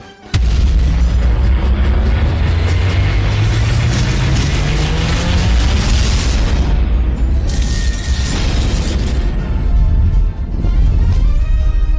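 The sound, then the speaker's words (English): A video game teaser trailer plays with loud, dense mechanical clanking, ratcheting gears and booming impacts over a rumbling low drone, continuous for about twelve seconds. “And there's a little teaser trailer here on the website. I'm going to hit this real quick.”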